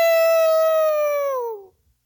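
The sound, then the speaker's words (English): A person imitates a howl with a single long, loud, steady voiced tone that sags slightly in pitch before cutting off, with no other sound. “It was a 3D howl, and so we're going to give you that.”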